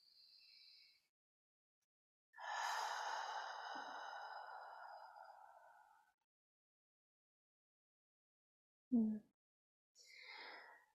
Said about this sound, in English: We'll just take 3 deep breaths together.